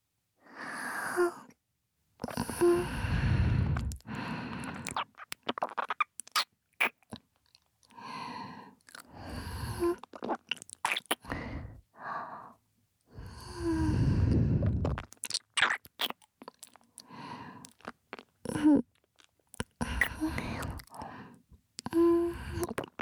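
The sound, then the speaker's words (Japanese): Wet, close-up kissing sounds right at the ear: many irregular lip smacks and moist mouth noises in quick clusters, separated by brief pauses. “もうちょっとキスをさせていただきますね。”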